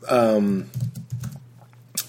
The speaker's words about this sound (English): So I queued up a song. That was the typing.